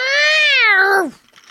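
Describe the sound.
A kitten gives one long, loud meow on its own, holding steady before its pitch slides down sharply at the end.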